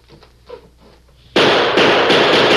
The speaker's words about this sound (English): What's the idea of shooting out the window?